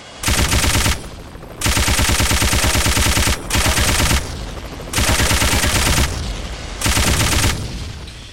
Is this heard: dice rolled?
no